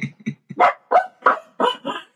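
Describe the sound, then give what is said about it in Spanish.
Several female dogs bark in the morning, restless before being let out. Sharp, loud barks come in a quick series, some short and some longer, with brief pauses between them. “Se escucha de fondo a mis perras ladrando porque están de mañana y ya casi les toca ir al baño, entonces por eso están así de fastidiosos.”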